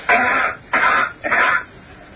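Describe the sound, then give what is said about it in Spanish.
Three short coughs from one person, meant to compare a cough on Earth with one on Mars, each a harsh, somewhat muffled burst of similar loudness with brief pauses between. “Vamos a repetir la tos en la Tierra y la tos en Marte.”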